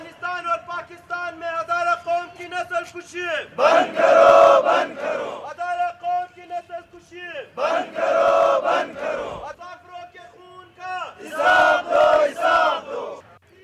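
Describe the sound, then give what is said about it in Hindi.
Protesters chanting slogans outside Quetta Press Club against the killing of seven Hazara people in Afghanistan: a single leading voice calls out and a loud crowd shouts back three times in a call-and-response rhythm. “Quetta press club के बाहर होने वाले मुजाहरे के शुरका ने नारे लगाए।”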